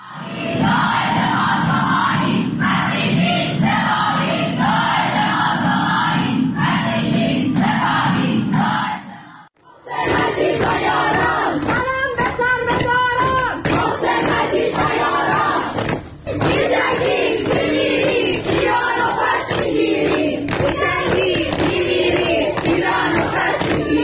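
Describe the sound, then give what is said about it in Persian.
A crowd of students chants and shouts at a protest rally at the art faculty of Soore University in Tehran, loud and continuous, with a brief drop in the noise about midway before the chanting resumes. “و این بخشی از اعتراضات دانشجویی در دانشکده هنر دانشگاه سوریه تهران.”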